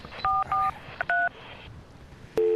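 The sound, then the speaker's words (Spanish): Touch-tone dialing on a payphone in a Bilbao street booth: a few short electronic dual-tone beeps in an uneven rhythm, one only a brief blip, then a longer, steady, lower tone after a pause, all clear over light background noise. “déjame que marque este número de teléfono. Bueno, primero tengo que meter dinero.”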